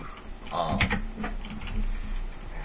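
Typing on a computer keyboard as someone enters text into a chat window: a fast, uneven run of plastic key clicks and taps over a constant background hiss, with no talking.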